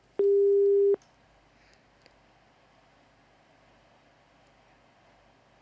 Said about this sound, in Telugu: Call cut అయిపోయింది.